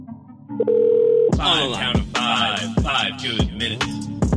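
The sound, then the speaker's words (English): A telephone tone sounds while a call is being placed: a short, steady, mid-pitched tone, then a busier stretch of warbling, clattering line sounds. “But all right, let's dial Blythe up. Let's get her.”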